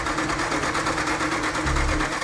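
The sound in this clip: A car fuel pump whirs steadily in a workshop during a test for an engine fault, giving a continuous buzzing drone with a fast, even pulse and a low rumble swelling briefly near the end.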